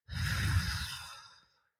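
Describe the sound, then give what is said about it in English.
A single long exhale, a breathy, steady release of air that holds for over a second before slowly fading to silence. “Let's release any air that we're holding onto in our bodies, y'all. Let's let go with an exhale.”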